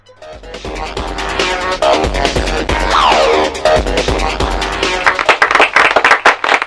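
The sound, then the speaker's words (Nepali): Applause from a quiz-show audience after a contestant answers correctly: dense, sustained clapping that swells quickly and holds steady, then thins into separate, distinct claps toward the end. “फेरि पनि ताली पड्क्यो”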